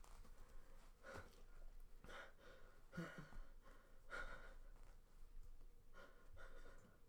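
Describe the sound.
Heavy, labored breathing of someone out of breath after smoking weed, ragged gasps and sniffs recurring in a rough rhythm at a moderate level.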